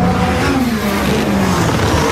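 A Formula 1 car, Perez's, warming its tyres at the 2023 Hungarian Grand Prix. It gives a loud, continuous engine note whose pitch slides gradually lower and never breaks.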